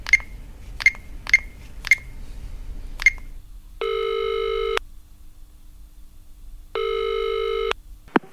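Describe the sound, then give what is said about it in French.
A film director phones a casting agent: five sharp key-press clicks, then two long buzzing ring tones about three seconds apart as the outgoing call rings, ending with a click. “Il téléphone à un agent de casting, Daniel Béat”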